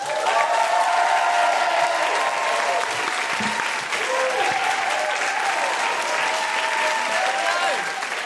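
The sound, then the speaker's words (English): An audience applauds a musical guest with steady, dense clapping while excited woohoos ring out over it throughout. “Put your hands together and make excited, guilty feminist woohooing noises”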